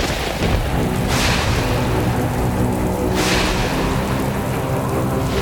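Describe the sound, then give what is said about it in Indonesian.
Thunder strikes as the sky suddenly darkens, over a loud, steady roar of rain. Two crackling surges of thunder break through the constant downpour. “Langit mendadak gelap dan petir menyambar.”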